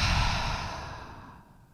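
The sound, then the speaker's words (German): A deep exhale from a person during a guided breathing exercise: one long, breathy rush of air that starts loud and gradually trails off over nearly two seconds, with no talking. “Und ein letztes Mal atme ein, atme aus.”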